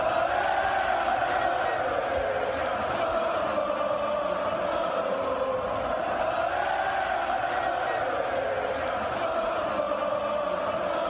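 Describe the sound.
A football stadium crowd chants loud, sustained acclaim for coach Diego 'Cholo' Simeone, who watched the match from a box in the stands, the massed voices forming a steady, continuous roar throughout.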